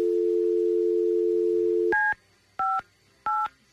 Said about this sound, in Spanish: Marco otra vez. Mira, a ver, dale otra vez a ver. Ok, voy a marcar otra vez.